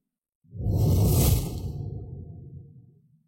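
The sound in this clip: A sword swung through the air makes a single broad whoosh that swells quickly, peaks and trails off over a few seconds, with nothing else heard.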